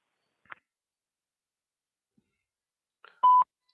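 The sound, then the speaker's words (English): A voicemail beep tone sounds once, short, steady and fairly high-pitched, after a few faint clicks and otherwise near silence. “if you'd like to leave a message at the tone, I'll get back to you as quickly as I can”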